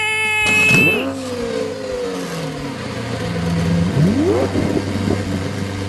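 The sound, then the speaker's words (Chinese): A red sports car engine revs and roars, its pitch sweeping up and down in sharp whines with a final rising surge, over a steady low drone. “震耳欲聋的跑车声从远处传了过来，没想到是乌龟。它开着一台红色的跑车，缓缓地驶向起跑线。”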